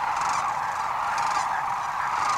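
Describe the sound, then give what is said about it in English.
Sandhill cranes call in a dense, continuous chorus of many overlapping voices at a wetland stopover between wintering and nesting grounds, a steady mass of calling with no pauses. “So do half a million sandhill cranes.”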